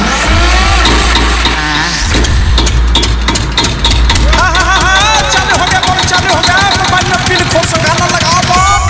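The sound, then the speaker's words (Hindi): A diesel generator, just fuelled with oil, is started at a devotional DJ music gathering. Its loud engine rumble runs throughout, mixed with voices and a busy clatter of other noise. “अभी हम तेल रख के generator चालू करते हैं”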